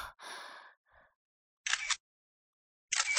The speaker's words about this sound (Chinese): 听到快门按下的声音，我转头过去，慌乱地想要阻止